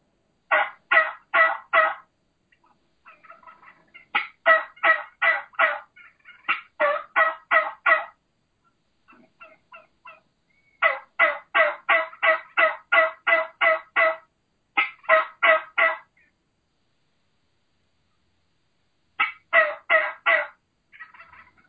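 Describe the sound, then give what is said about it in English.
A turkey call imitating a boss tom or mature hen, low and slow, with runs of evenly spaced yelps separated by pauses of silence. “the vocalizations of a boss tom or a boss hen or an old mature hen. what I call that low and slow.”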